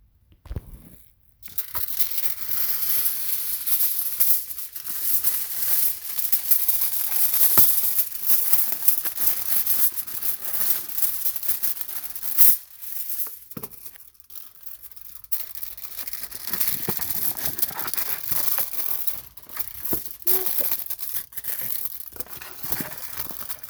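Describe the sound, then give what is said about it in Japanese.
Aluminium foil crinkles and rustles as it is prepared for wiping feet, a dense, crackling texture that runs almost continuously, with a brief lull midway and no talking. “ちょっとじゃあアルミホイルの用意をしますね。”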